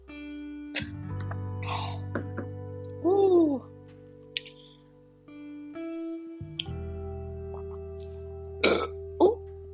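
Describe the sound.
A burp after drinking: one loud, croaky belch rises out of a low steady hum midway through, with a few shorter throaty bursts near the end.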